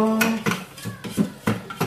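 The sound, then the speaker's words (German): A spatula scrapes chopped food down inside a chopper, making several short scraping knocks in quick, uneven succession, with a voice briefly underneath. “So, jetzt soll ich das mit dem Spachtel da oder Spatel, wie das Ding heißt hier, alles nach unten schieben. Ja, mach ich.”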